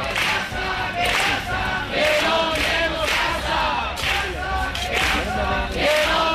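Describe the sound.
Protesters at a housing demonstration in Vigo shout a chant together, with many rhythmic bursts of massed voices repeating at a steady pace over continuous crowd noise.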